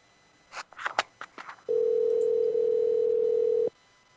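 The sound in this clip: Telephone ringback heard while calling the number of a hotel event coordinator. A few faint clicks come first, then one steady, even tone lasting about two seconds, then quiet.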